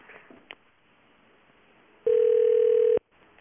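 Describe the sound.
A telephone call ringing out: after a few faint clicks, a single loud, steady electronic ring tone sounds for just under a second and then stops, leaving quiet line noise.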